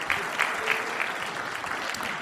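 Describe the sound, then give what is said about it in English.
Audience applause at a Christian gathering, a steady dense clapping that holds at an even level for about two seconds, with a few slightly louder claps near the start. “Give him a clap offering.”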